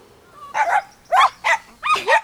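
A dog barks on a walk, giving several short, sharp, fairly high-pitched barks in quick bursts with brief gaps between them.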